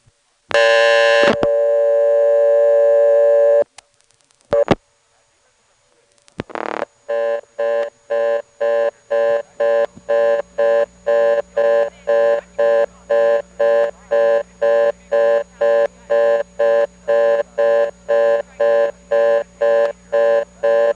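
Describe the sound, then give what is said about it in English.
All-trunks-busy tone from a telephone exchange selector stepping over to its 11th terminal: a steady tone and a few sharp clicks, then a loud, rapid, evenly pulsed tone repeating many times. “You could hear it shooting over to the 11th terminal there. That just means all the trunks are busy”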